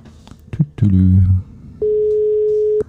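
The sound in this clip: An unanswered telephone call gives a ringback tone: one steady, mid-pitched electronic beep lasting about a second. It follows brief voices and some handling noise.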